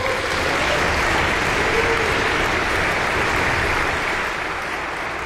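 Audience applause welcomes the concertmaster and conductor of the Aspen Festival Orchestra at a concert: dense, steady clapping from many hands that holds at an even level and eases slightly near the end.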